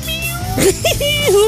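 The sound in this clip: A person imitates a cat meowing, giving a few short, whiny mews over a steady humming background.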